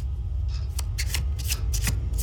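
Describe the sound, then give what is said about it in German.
Cards from a special tarot deck decorated with Maya symbols being shuffled: several crisp, papery riffling bursts at an irregular rhythm over a steady low hum. “Was sind das für Karten? Tarotkarten. Aber ein ganz spezielles Deck. Mit Symbolen der Maya.”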